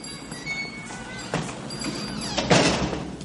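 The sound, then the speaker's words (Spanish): A restaurant door swings open with two short scraping, rustling bursts over a continuous low background. “Se abre la puerta”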